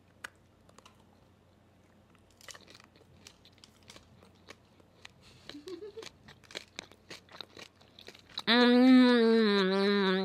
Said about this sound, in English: You should do a little ASMR chomp. Okay. I always just want to put the whole thing in my mouth, but then I won't be able to savor it. No, you have to bite.